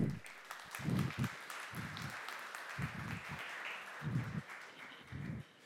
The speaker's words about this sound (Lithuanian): Pasitikėme jį plojimais.